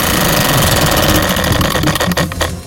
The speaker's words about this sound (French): On retourne la roue ? Je pense. C'est parti.